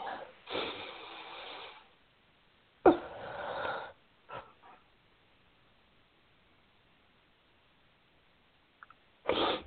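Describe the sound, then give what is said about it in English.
A deep breath taken during a self-acceptance affirmation exercise: two long, airy, slightly wheezy breath sounds with a short gap between them, then near silence before another breath starts at the very end. “I take a nice deep breath.”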